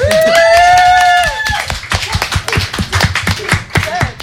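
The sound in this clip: Audience clapping to welcome a guest onto a stage, a thin, sparse patter of claps that follows a long drawn-out announcing voice.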